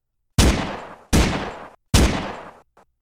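An old man fires a gun in an alley: three loud, sharp gunshots, evenly spaced, each trailing off in a decaying tail. A faint short burst follows the last shot.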